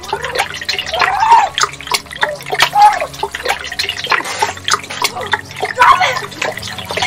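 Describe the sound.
Water churns and splashes in a kitchen sink as someone is held under. The sloshing is loud and continuous, mixed with muffled, gurgling voice-like sounds of struggle.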